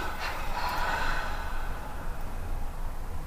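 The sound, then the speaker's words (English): Breathy exhalation during a breathing exercise, a steady soft hiss of air that lasts the whole moment without any talk. “Tensing the body. Exhale with a double breath.”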